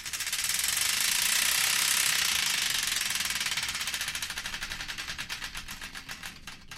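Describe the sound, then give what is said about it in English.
A spinning prize wheel rattles, its pointer clattering rapidly against the pegs in a loud, dense whir that slows into more widely spaced, separate clicks toward the end. “The Wheel of Destiny is here ready to be spun, so further ado, let's spin it and find out the song that's kicking things off.”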